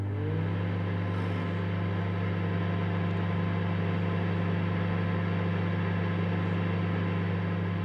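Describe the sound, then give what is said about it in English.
A microwave oven running, producing a steady, continuous low hum with a broad whirring noise that stays constant throughout. “It's a microwave. It's a microwave. What if I said you were wrong? I wouldn't believe you. Oh, okay. It's a microwave. That's right.”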